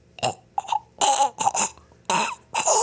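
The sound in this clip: A person coughing and clearing their throat in a series of harsh, loud bursts with short pauses between them.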